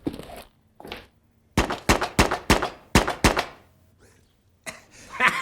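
Colt revolver shots fired at a target on a shooting range: a quick series of several loud, punchy bangs with short, uneven gaps between them.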